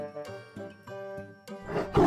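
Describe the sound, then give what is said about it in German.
A tiger roars, a rough, gravelly growl that swells loud at the end, following a few sustained tonal notes. “Wow, ein Tiger!”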